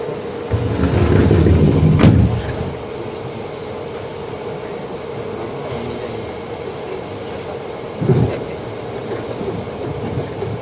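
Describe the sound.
Metro train doors shutting and the train pulling out: a loud low rumble ends in one sharp thud, then a steady mechanical hum with a droning tone carries on, broken later by a single brief low surge.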